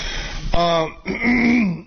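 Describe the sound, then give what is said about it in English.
A person clears their throat in a couple of rough, voiced bursts, the second longer and drawn out, fairly loud and alone with no talk. “Let me turn off the mic and finish clearing my damn throat.”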